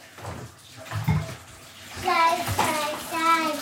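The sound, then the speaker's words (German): Water runs from a tap as a child washes hands after drawing, a steady hiss of running water rising partway through, with a child's and an adult's voices over it. “Und wir brauchen jetzt Hände waschen.”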